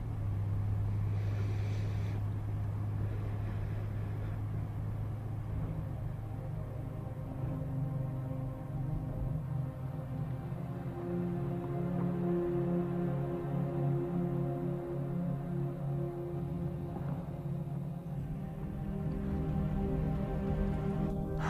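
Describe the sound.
A car driving, heard as a steady low engine drone with a constant hum that runs unbroken through the whole clip, with no voices.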